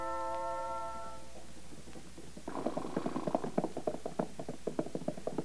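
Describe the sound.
Horse hooves clip-clop as a rider sets out, a quick, even series of sharp hoofbeats that begins partway through and carries on steadily to the end, fairly faint.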